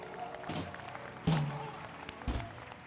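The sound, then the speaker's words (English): Congregation clapping hands at a church service. A loose, scattered clapping texture is broken by a few sharper, louder hits, with a faint murmur underneath. “Are you clapping your hands for Jesus?”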